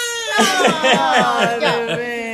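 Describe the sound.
A baby crying, high-pitched wails broken into short rhythmic pulses over about two seconds.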